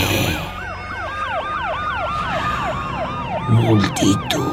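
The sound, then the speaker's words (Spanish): Emergency vehicle sirens wail in fast, repeating up-and-down sweeps, loud and continuous, over a low rumble of traffic, with a few heavier thuds near the end. “Multitud. Sirenas.”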